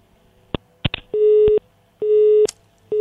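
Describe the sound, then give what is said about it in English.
A telephone line tone sounds after a radio caller's connection drops. A few sharp clicks come first, then steady mid-pitched tone pulses repeat with short gaps: two full pulses, and a third begins at the end. “We lost connection with that caller”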